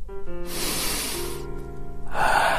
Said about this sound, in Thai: ขอสูดอากาศแห่งอิสรภาพให้เต็มปอด